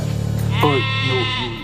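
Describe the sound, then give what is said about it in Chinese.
A sheep bleats once, a single wavering, nasal call lasting about a second, heard alone over a low steady hum. “绵羊，看着像绵羊。”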